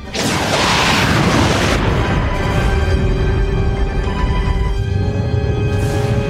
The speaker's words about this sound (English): He's firing photons.